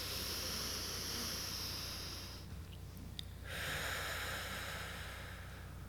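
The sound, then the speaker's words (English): Deep breathing during a relaxation exercise: a long, airy exhale pushed out from the belly, a brief pause, then another slow, breathy stream of air, soft and alone. “Let's take a deep breath together so your neighbor can hear you. First, exhale all the air out. So push it out with your abdomen muscles.”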